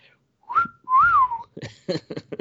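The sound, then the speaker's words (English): A person whistling two clear notes, a short high one and then a longer tone that swells up and falls back, followed by a few short, choppy sounds. “And I whistled.”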